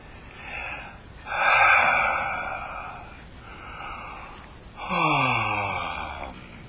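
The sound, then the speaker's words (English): A person takes slow, deep breaths in and out at an unhurried pace. Two long, full breaths stand out among softer ones, and one carries a faint voiced, sighing edge. “Breathe in, breathe out. Breathe in, breathe out. Not quickly, but just deeply and completely.”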